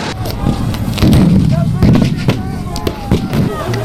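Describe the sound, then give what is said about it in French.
Sharp shots fired by police to disperse protesters at a mega-reservoir site in Deux-Sèvres: a few irregular bangs crack out over a rumbling, noisy crowd commotion. “vous avez l'usage des armes et vous continuez à effectuer des tirs de dispersion.”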